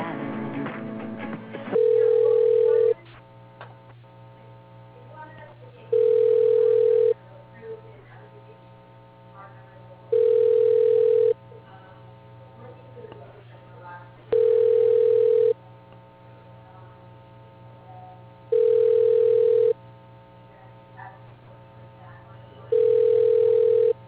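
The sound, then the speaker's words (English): A telephone ringing tone plays while a call is being transferred to an office extension. Six evenly spaced rings of about a second each sound at one steady pitch, with long quiet gaps of faint line noise between them. “For Susan Weil, your call is being transferred.”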